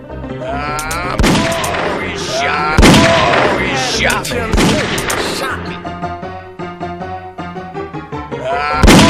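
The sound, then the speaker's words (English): Gunfire in a video game, a few heavy booming shots that break out over sustained tonal background sounds, with loud bursts spaced irregularly through the stretch. “Oh, he shot me. Ain't lead, ain't lead. Oh, that was close. Shot me.”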